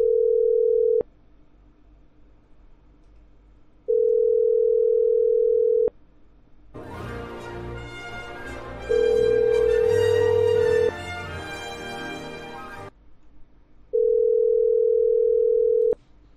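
Ringing tone on a phone line while calling a number: four long, steady mid-pitched tones with gaps of a few seconds. A loud, harsh, noisy stretch swells between them and partly covers the third tone.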